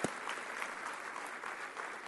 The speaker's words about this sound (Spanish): Si Dios te habló hoy, da un aplauso al Señor, que Él se lo merece.